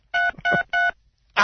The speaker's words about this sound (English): Our voices blend with the touch tones, and it throws the tones off. Yes, and it makes it goes beep, beep, beep, beep, beep.